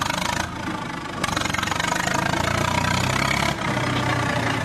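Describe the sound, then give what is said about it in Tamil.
A JCB excavator engine runs in a dense, steady diesel rumble at idle, with a few abrupt shifts in level but no clear rise in revs, before land clearing. “அந்த ஜேசிபிய start பண்ண சொல்லு.”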